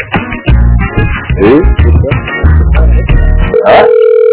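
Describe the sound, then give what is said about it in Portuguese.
Steady telephone dial tone near the end of placing a call, heard after several seconds of loud, dense, choppy sound with brief chirping tones just before it. “Vou fazer uma ligação aqui, senhor.”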